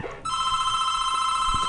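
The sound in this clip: A telephone bell rings for an incoming call: a loud, steady, sustained ring that starts a moment in and holds unbroken to the end.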